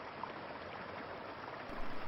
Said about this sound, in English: water sounds like a babbling brook, like this one that we have playing right now,